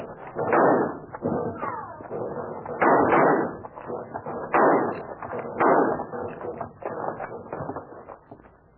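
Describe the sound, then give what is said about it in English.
Gunshots ring out in a canyon shootout, with many loud reports in irregular bursts, some close together and some spaced by short pauses. “They quit firing. I guess they must be reloading.”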